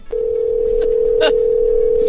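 Telephone dial tone heard while a number is being dialled: a continuous, steady, mid-pitched hum that runs almost the whole clip at an even loudness.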